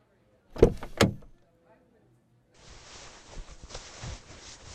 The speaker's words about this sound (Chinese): 我们先进车里边感受一下怎么样？来，我帮您把门打开。